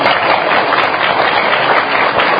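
An audience at a gathering bursts into applause, a loud, continuous wash of dense clapping with no breaks.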